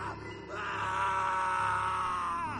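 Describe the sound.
A man screams loudly in terror: one long, high, tonal wail rises out of a quieter start and is held steadily for about two seconds, fairly faint overall.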